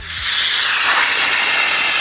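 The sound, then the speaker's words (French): Loud, steady hiss of a small train braking as it pulls into a station, with a brief low rumble at the very start and broad air-like noise sustained evenly for about two seconds. “Alors moi, ça serait un train qui freine, qui arrive en gare. Effectivement.”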